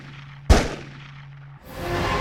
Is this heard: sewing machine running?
no